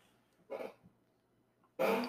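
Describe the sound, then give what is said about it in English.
Two short hiccups from a person, each a brief throaty burst, separated by more than a second of near silence; the second is louder and longer than the first. “Excuse me, hiccups there.”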